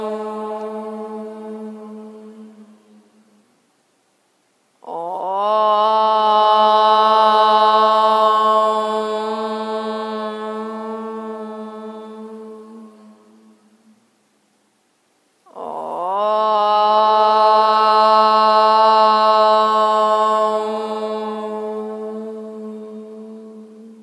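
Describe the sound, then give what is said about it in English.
A group chants om together in long, low, droning tones with rich harmonics. The fading tail of one chant is followed by two full chants, each swelling and then slowly tapering, with short silent breaths between them. “Closing with three ohms, let's inhale.”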